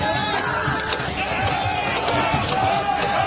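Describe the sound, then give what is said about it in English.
Battle sound effect from a comedy radio drama of soldiers clashing: a dense, continuous roar of crowd shouting and scuffling, loud and steady from start to finish. “As our scene opens, soldiers are engaged in the final price war.”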